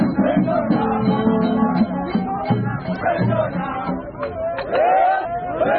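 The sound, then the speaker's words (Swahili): Gor Mahia football fans celebrating after beating AFC Leopards in the KPL Super Cup final: a loud crowd of mixed voices shouting and chattering, with some high, wavering cries rising above the babble. “Shangwe, vifiju na nderemo.”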